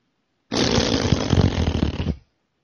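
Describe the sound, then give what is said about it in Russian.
A person imitating a fart with the mouth: a single loud, buzzy, sputtering blast of about two seconds that starts abruptly and trails off, with no talk. “А ты пукать умеешь? Конечно. Ну, попробуй.”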